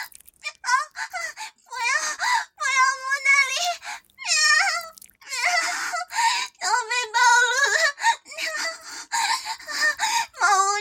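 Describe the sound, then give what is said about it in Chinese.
A cat meowing, with many drawn-out, wailing meows in loud bursts separated by short pauses. Each call wavers in pitch. “不要摸尾巴，不要摸小猫咪的尾巴。”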